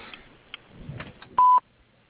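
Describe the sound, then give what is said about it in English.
A voicemail tone sounds before a message is left: a single short, loud, steady electronic beep over faint background noise. “After the tone, please leave me the message.”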